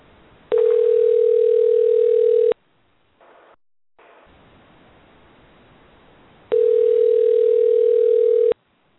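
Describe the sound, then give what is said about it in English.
A telephone line ringing after a number is dialed: two long, steady, even-pitched tones, each about two seconds, separated by a quiet gap of roughly four seconds, with faint line hiss between and no talk. “And dialing now.”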